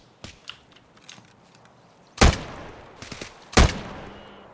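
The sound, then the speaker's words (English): Gunfire in a video game as a player shoots into bushes: a couple of loud, sharp blasts with ringing decays, preceded by fainter clicks and pops, with no talking. “Are you shooting at him? I'm shooting at the bushes. Trying to get him out.”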